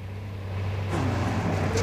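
A car approaches a pedestrian on the road: a low, steady engine hum slowly swells in loudness over the short stretch.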